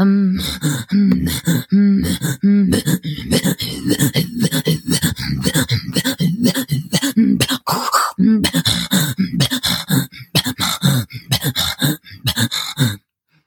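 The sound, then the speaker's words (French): Rapid guttural throat-singing game in which two players trade sounds back and forth at speed, voiced on both inhale and exhale. It forms a dense, rhythmic stream of breathy grunts and gasps that runs steadily for about thirteen seconds, then stops. “Et c'est un jeu aussi de rapidité. Et celle qui suit plus, enfin celle qui décroche a perdu en gros. Et donc c'est tout en ping-pong. Et c'est des jeux de gorge”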